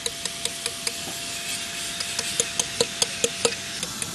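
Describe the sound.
A carving chisel strikes hard bluestone during high-relief stone carving, giving many sharp, bright taps, sparse at first and then coming in a quicker, steadier rhythm over a faint scraping background.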